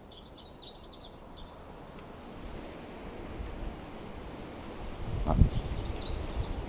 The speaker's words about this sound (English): I want to listen to that beautiful bird singing there.